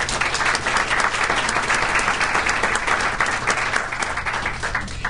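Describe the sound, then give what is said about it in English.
Loud audience applause welcoming a speaker at a legal panel event. The dense, steady clapping continues unbroken throughout. “So would you please give a warm welcome to our first speaker, Mr. Richard Samp.”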